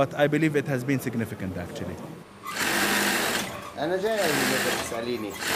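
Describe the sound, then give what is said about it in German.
A sewing machine stitches the seams of a dress in a tailor's workshop in Sheikh Jarrah. A voice talks at the start, then the motor whirs steadily in long runs, with a voice briefly heard over it. “Der Schneider Issa Kawasme sitzt in seiner Werkstatt in Sheikh Jarrah, einem arabischen Viertel außerhalb der Altstadt. Ruhig führt Issa die Nähte eines Kleides unter der Maschine hindurch.”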